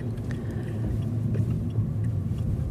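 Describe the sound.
Steady low rumble and road noise from a Smart electric car driving, continuous and even throughout, with no voices.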